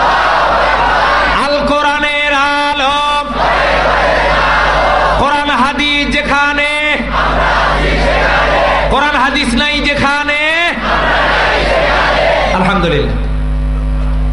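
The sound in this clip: A religious gathering's crowd shouts the takbir chant in response, with three loud bursts of massed voices in unison standing out over continuous crowd noise.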